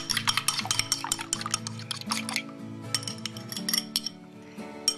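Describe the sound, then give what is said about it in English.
A fork lightly beating eggs in a bowl, producing many rapid, crisp clinking taps in quick bursts with brief pauses between them. “Soften it with a fork so that it all blends pretty well. And now I'm slightly beating the eggs.”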